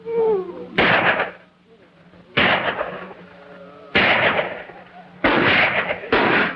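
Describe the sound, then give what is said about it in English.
Five loud, sharp gunshots are fired from inside a cabin at night at cattle rustlers, spaced irregularly about a second apart. “The gunfire is kept up from within the cabin.”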